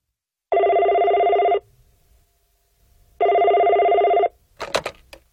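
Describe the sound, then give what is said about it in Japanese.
A telephone bell rings twice, each loud burst of bright, buzzing ringing lasting about a second with a pause between, followed by a few brief clicks. “もしもし、テレホン人生相談です。”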